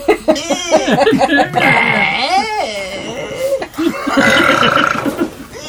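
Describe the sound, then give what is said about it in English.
A long, whiny burp, drawn out and strained, with a wavering, squeaky pitch that bends up and down through several voiced pulses. It is loud and close. “It's a kind of a whiny burp, wasn't it? Burp.”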